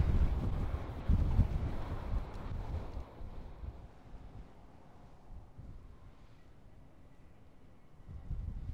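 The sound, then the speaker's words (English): Wind blowing across an open landscape, buffeting hard in strong gusts for the first few seconds, easing into a quieter lull, then picking up again at the end. “The way that this location channels the wind is really quite amazing. At one moment you can be blasted in the face, and the next you can be in perfect shelter,”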